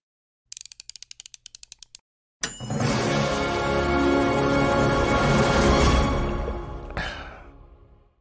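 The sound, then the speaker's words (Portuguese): An intro jingle: a quick series of sharp ticking clicks, a short silence, then a dense, loud wash of full-bodied sound that swells for several seconds and fades out. “Para de falar e solta a vinheta”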